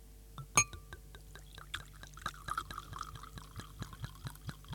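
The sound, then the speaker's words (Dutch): A drink being poured into a glass: one sharp glass clink, then a faint trickle with many small drips and ticks, quiet and without talk. “en nou willen we het inschenkmomentje ook even hebben”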